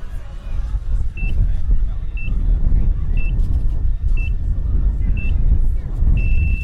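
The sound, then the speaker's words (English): Starting pips for a 10K cross-country ski race on soft snow: five short high electronic beeps about a second apart, then a longer sustained tone, sounding over a steady low rumble. “try and do a quick double pole kind of push off when you hear the pips go. So 5 seconds till the bleeping starts. Here we go.”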